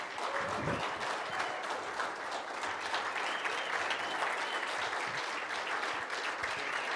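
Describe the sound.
Steady applause from a church audience welcoming a visiting couple, many hands clapping in a dense, even, moderately soft wash that continues unbroken for about seven seconds.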